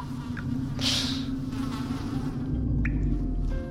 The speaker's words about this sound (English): Another thing I added was just simple recordings of flies, which to me says dead bodies.